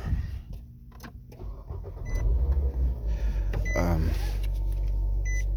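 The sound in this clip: Car driving, with a steady low engine and road rumble that grows noticeably louder and fuller about two seconds in and stays even after that.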